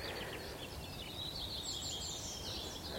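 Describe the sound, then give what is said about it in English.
A skylark singing above grassy moorland on Sugar Loaf mountain: a continuous high, twittering warble, faint against a steady background hiss. “There's a skylark singing. Up above the woods, its nest is out in the grassland.”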